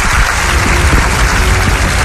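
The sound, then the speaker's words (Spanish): Loud, dense audience applause welcoming a guest to the stage, a continuous even wash of many hands clapping with no voices above it. “a quien pido que le des un fortísimo aplauso.”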